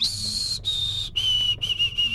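A person whistles an imitation of a white-throated sparrow's song, three long, clear, high held notes, each slightly lower than the one before, followed by a few quick, short repeated notes.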